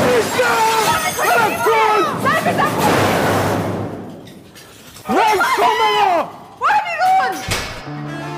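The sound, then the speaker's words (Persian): Cabinet glass is smashed by hand and the cabinet is knocked over, a sharp burst of shattering near the middle, surrounded by loud, strained voices before and after. “کریم با دستش میزنه تو شیشه کمد. کمد رو میندازه زمین.”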